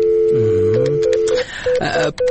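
A telephone being dialed to ring an office secretary: a steady electronic tone gives way to several short, clipped beeps in an uneven rhythm, moderately loud with no talking.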